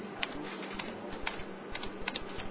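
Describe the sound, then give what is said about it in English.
Keyboard keystrokes as a website address is typed on a computer, a series of faint, sharp clicks in an uneven rhythm over a low steady hum. “So just type the job website address here.”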